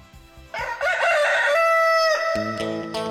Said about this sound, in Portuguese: Muito bem, galinho cantando em 6h25.